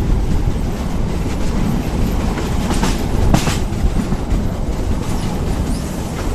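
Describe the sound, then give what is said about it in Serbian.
Steady rumble and clickety-clack of a slow-moving narrow-gauge passenger train, full of passengers and hauled by a locomotive, running continuously and loud with no talk. “Vrlo polako, vrlo polako. Ovo se kreće svojom uzanom prugom, pun je putnika. Eno, ja vidim sada lokomotivu.”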